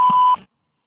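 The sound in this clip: A voicemail beep marks the start of message recording. It is one steady, mid-high pure tone lasting about a third of a second, heard alone, then cut off into silence.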